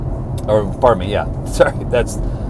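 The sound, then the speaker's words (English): Road traffic passes as a steady low rumble that runs under continuous speech, rising and easing slightly without any distinct vehicle standing out. “I'm getting ahead of myself. Sorry, there's traffic.”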